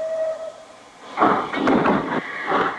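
A train starting to move: a thin steady tone fades out, then a few loud, heavy rumbling bursts follow in an uneven rhythm.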